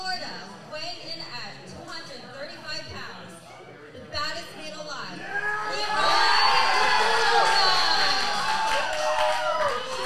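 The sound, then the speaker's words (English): A wrestling crowd chants for a wrestler and cheers, a dense wash of many voices that swells noticeably louder partway through and stays loud to the end. “Oh no, here come the Leroy Shogun. Crowd chanting Shogun. Everybody into Shogun.”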